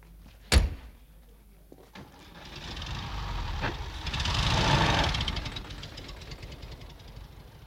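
A car door thuds shut, followed by softer knocks, then a car engine swells and fades as the vehicle pulls away with a delegation at an official visit. The engine is a broad, rumbling drone that peaks midway and then tapers off.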